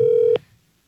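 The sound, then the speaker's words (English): A telephone tone as a call is placed: a single steady electronic beep holds for about a third of a second, then cuts off abruptly with a small click into silence. “We're calling Bea Arthur right now.”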